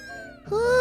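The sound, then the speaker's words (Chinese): A cat meows in a yard: a brief cry under a second long, a thin note sliding slightly lower, then a louder, higher note that rises. “你看，小猫咪跳进院子了。它们跳到院子来要做什么呢？”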